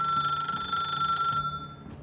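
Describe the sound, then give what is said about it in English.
A telephone rings with a steady, high, trilling bell tone held for about a second and a half before cutting off, fairly faint and alone. “But before she could even glance outside, the phone rang again.”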